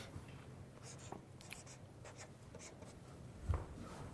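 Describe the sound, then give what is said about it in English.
Faint scratchy strokes of writing on a board, with short scrapes and squeaks at irregular intervals over a low hiss. “And I'm just writing this here like this just to illustrate kind of this funnel effect”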